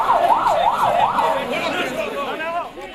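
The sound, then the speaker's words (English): An ambulance siren wails in loud, steady rising and falling cycles as it carries victims of a car bombing in northwestern Pakistan near the Afghanistan border; shouting voices join and grow more prominent in the second half. “sirens wail and people shout as an ambulance rushes victims to hospital after a car bombing near the Afghanistan border.”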